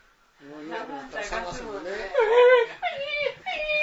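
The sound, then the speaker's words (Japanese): An adult voice imitates a small child crying, with whimpering, drawn-out sobbing wails that rise, break off and start again in short whiny bursts. “とかね、こうやって泣くじゃないですか、ね、全く迷惑な子供ですよね。”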